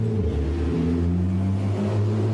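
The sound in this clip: A car fitted with a comically large rear spoiler revs its engine, a loud, steady low rumble with a droning tonal hum that holds throughout the short moment.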